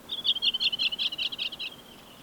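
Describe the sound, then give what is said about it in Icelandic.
Redwing song: a faint, rapid run of many high, chirping notes in a steady rhythm, with no other sound around it. “Við ætlum að fjalla skógarþröstinn og músarindilinn. Þetta skógarþröstur.”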